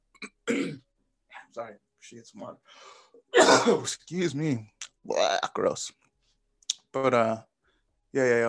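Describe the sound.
A person coughs and clears their throat several times, short rough bursts separated by pauses, mixed with brief voiced sounds.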